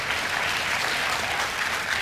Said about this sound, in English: Now, I see that about a third of you applauded to that.